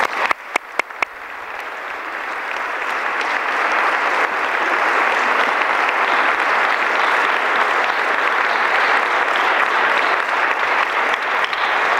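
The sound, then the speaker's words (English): An audience applauds to welcome a speaker to the stage at an event. A few sharp scattered claps swell into loud, sustained clapping that lasts about twelve seconds. “Please give Curtis McCarty a warm welcome.”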